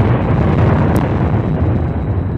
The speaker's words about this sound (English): Earlier this spring, twin 500-foot cooling towers were blown up.